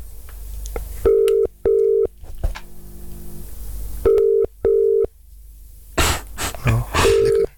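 Telephone tones sound as a call to Eindhoven is dialled: five loud, steady electronic beeps, mostly in pairs, separated by soft clicks and a brief burst of rustling noise near the end.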